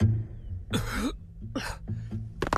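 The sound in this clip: A man coughs after choking on a gas sprayed at him. There are three harsh, fairly faint coughing bursts with short gaps between them, the last one quick and clipped.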